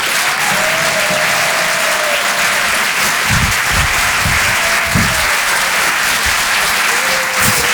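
Audience applause welcomes a comedian onto the stage at the Apollo Théâtre in Paris during a live comedy club night, a loud, even wash of clapping that continues steadily for nearly eight seconds.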